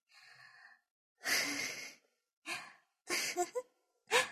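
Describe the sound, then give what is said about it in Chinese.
Slow breaths out and in, paced to a count: a few airy, breathy exhalations and inhalations, the first long and drawn out, the later ones shorter, each separated by silence. “呼气，吸气，吸，呼气，吸气，呼气。”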